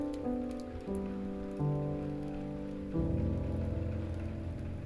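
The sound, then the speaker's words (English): Raindrops falling: an even hiss of rain under soft, sustained synthesizer chords that shift slowly in a calm relaxation setting. “Let those cleansing raindrops fall upon your hips,”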